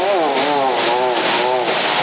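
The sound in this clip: A voice imitates a motorcycle engine seizing, heard over a CB radio link: a steady, warbling, wavering drone that holds at an even loudness for about two seconds.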